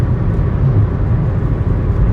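A car drives along a country road, its engine and tyres making a steady low rumble that stays even throughout, with no voices.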